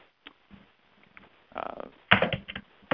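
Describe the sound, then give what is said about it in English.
Keyboard typing heard over a phone line on a conference call: thin, muffled key clicks, sparse and scattered at first, then in denser quick bursts. “Someone is typing, I think that's on the phone, and it's really distracting.”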